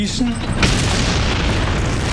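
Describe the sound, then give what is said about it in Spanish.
Tank gunfire in an Ardennes battle between German Panzer IV and V tanks and American tanks comes as a loud, dense booming rumble that carries on without a break across the whole moment. “Al mismo tiempo, los tanques estadounidenses también nos disparaban.”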